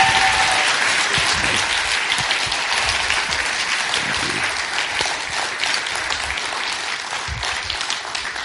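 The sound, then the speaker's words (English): Audience applause during a church worship service, a dense, steady wash of many hands clapping that carries on throughout and eases slightly toward the end, with no talk over it. “Hey, would you give him a hand? Thanks, guys.”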